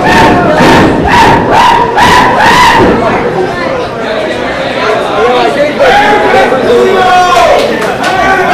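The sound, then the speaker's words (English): A wrestling crowd heavily boos the champions in a loud, sustained roar, with rhythmic pulsing bursts in the first few seconds. Commentators talk over the noise. “Are the champs being booed? Are the champs getting booed? The champs are being heavily booed right now.”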